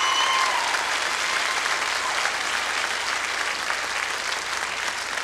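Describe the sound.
Audience applause welcomes a bass guitar player as he is introduced on stage. The dense, steady clapping holds at a fairly even loudness throughout, with no voices over it.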